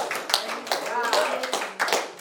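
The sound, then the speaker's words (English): A church audience claps after a testimony, with a quick run of sharp hand claps. Voices call out over the applause. “Can we clap for Jesus for that testimony?”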